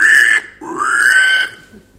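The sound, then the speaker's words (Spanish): Pig-like squeals from a wild boar, two loud drawn-out cries with the second rising in pitch, heard alone without talk. “Ahí va que se está transformando en jabalí.”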